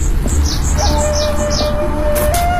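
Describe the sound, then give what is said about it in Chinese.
Small birds chirp with many short, high, repeated tweets by a garden pond at a plant nursery, over a steady background hum. “哦，小鸟叫，真的”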